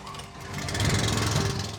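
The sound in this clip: A water pump starts up and runs, a low rumbling drone that swells in loudness and then holds steady.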